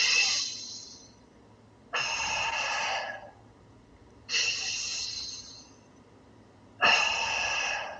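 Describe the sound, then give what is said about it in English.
Slow, deliberate breathing, with air drawn in through the nose and let out through the mouth. Four long, airy hisses are separated by quiet pauses, and no one talks. “so that was a breath that was in through my nose and out of my mouth.”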